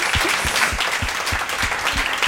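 Audience applause at an evening event after a book is promoted, a dense, steady clatter of many hands that stays loud and even for the whole stretch with no voices over it.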